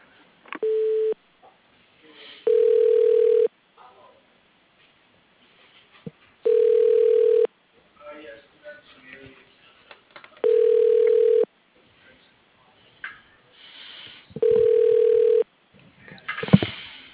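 Ringback tone as a phone call is transferred to voicemail. Five steady, single-pitched tone bursts come about four seconds apart, the first one shorter, with faint line noise and clicks between them and a louder rustle at the end.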